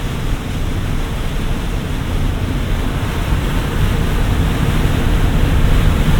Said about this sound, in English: That's drier, isn't it? Yep. God, it's like a hurricane.